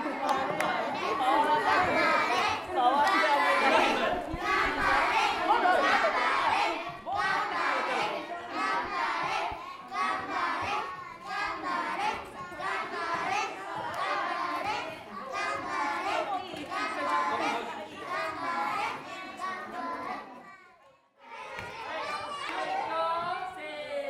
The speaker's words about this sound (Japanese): そんな様子にも園児の皆さんから声援が飛んでいました。